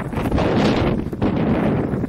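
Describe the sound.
Mountain wind buffets the microphone in a loud, continuous roaring rumble that dips briefly near the middle before surging back.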